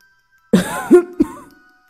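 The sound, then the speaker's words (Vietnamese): An old man coughs in a few short, rough, throaty bursts that sound like throat-clearing, voiced by a narrator imitating the sound. The bursts come close together and then trail off into silence. “Lão ho hai tiếng, giống như vô cùng đau lòng.”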